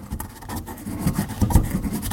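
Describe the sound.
Pungent herbs are ground by hand for a gree-gree mixture, making a steady, gritty rasping and rubbing. It is continuous and fairly quiet, with a few slightly stronger scrapes.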